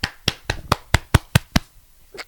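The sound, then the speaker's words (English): Hands beating on a stomach like a drum, about eight quick, evenly spaced slaps with a dull thudding low end, followed by a pause and one softer final slap, with no talking. “you just beat your own stomach like it was like some drum.”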